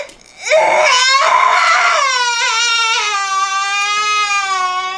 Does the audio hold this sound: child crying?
yes